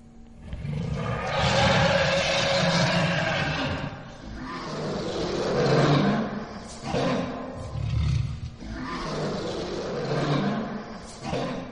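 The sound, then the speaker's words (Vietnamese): Tiger roaring and growling: a few long, rough, deep roars rise and fade one after another, loud and unbroken by any talk. “Tiếng hổ gầm càng lúc càng gần, gầm gừ nghe rõ lắm.”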